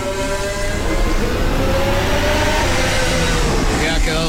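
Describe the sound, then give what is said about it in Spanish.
The engine of a 2026 McLaren Formula One car on a warm-up lap during a timed session: a loud, sustained, tonal drone that holds steady throughout, with a commentator talking over it. “la vuelta de calentamiento de Lando Norris”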